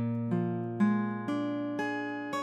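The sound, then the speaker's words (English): A B-flat 7 sharp 9 chord builds up as about six notes enter in turn over a sustained low tone, each adding to a dense, ringing, steadily held chord with no other sound. “But a B-flat 7 sharp 9 chord sounds like this.”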